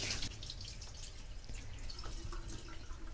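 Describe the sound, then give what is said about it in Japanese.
Water is poured over rice in a bowl for a first rinse and then tipped out. A quiet, continuous splashy trickle is heard, with faint dripping throughout. “お米の入ったボウルに注いで、まず1回目はあまり触らずにお米にひたひたの量のお水を注いでお水を捨てます。”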